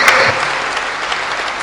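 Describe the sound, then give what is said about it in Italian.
Audience applause closing a conference morning session in Orvieto, a brief burst of dense, even clapping that holds steady and loud throughout. “fate un bel applauso conclusivo, dai, prima di alzarvi.”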